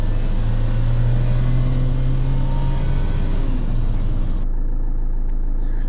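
A car drives in a video game with a continuous low engine drone and rumble. The upper hiss cuts out toward the end.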